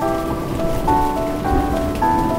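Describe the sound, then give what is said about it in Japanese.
Rain falling as a dense, continuous patter of countless drops that holds a steady loudness throughout. “あまたの雨粒が僕の体めがけて降ってくる。”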